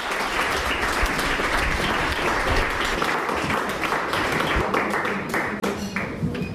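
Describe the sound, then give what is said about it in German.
An audience applauds two musicians introduced at a literary reading: loud, dense clapping sustained throughout, with a few sharper individual claps standing out near the end as it begins to thin. “Darum bitte ich jetzt gleich um einen kräftigen Applaus für Jürgen Osterlo und Jan Behrens.”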